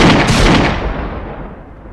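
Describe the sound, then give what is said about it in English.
A loud burst of energy-gun fire throwing blue sparks, a broad crackling blast that dulls and fades over about two seconds, with no voices. “As they both fire their guns in, blue sparks of energy shoot out of them.”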